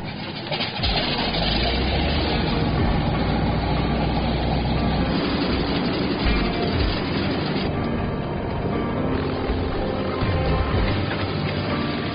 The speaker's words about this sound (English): They need to get going before the plane freezes up or the air temperature drops into the no-fly range.